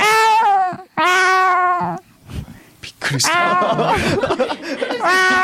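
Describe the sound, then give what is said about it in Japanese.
A person imitates a cat with several drawn-out, wavering meows and caterwauls in a high, strained voice, separated by brief breathy pauses. “あ、猫猫猫やって”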